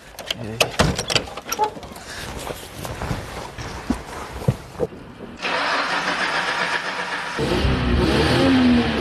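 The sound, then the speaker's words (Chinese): A car engine cranks and catches, then roars louder as the throttle is pressed. The car is one driven over desert sand dunes. Voices and knocks come first, then the engine runs steadily before a stronger rev near the end. “我能不能上去塞一塞油门？ 发动 一下声音， 发动”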